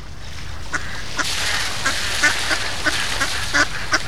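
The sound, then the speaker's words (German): A mother duck swims with her three ducklings on a pond, and many short, repeated quacking calls come in an uneven rhythm over a steady background hiss. “Da drüben auf dem Teich schwimmt eine Entenmama mit ihren 3 Kindern.”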